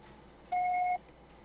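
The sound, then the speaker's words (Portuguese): A single voicemail beep: one steady, clean electronic tone about half a second long, sounding alone against a faint background hiss. “Grava seu recado. Você pode ser acarifado após o sinal.”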